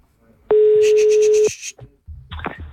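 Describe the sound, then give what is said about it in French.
A telephone call being dialled to a hotel: one steady electronic tone lasting about a second with rapid pulsing above it, then it stops and people talk. “Appelez-moi l'hôtel, tiens. Je vais d'abord appeler une première fois.”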